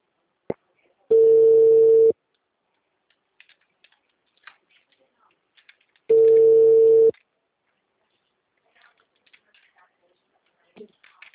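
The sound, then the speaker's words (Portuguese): A phone line gives off a steady electronic tone after a call has dropped. Two beeps, each about a second long, sound roughly five seconds apart, with faint scattered clicks in the silence between them. “Oi, a ligação caiu de novo. O sinal tá ruim”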